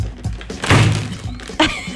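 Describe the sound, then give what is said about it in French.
An object is banged hard against a heavy wooden table, giving a few loud, dull thunks with a ringing decay after each strike, the strongest one midway. “Ah, ben c'est ça qu'il fallait, le frapper sur la table le plus possible. Frappe-moi ça contre la table, OK?”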